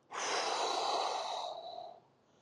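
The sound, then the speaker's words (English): A single long exhale through the mouth during a guided relaxation exercise: a soft, breathy rush that lasts about two seconds and tapers off at the end, heard alone without speech. “And then on the next exhale, we're going to go ahead and exhale through our mouth.”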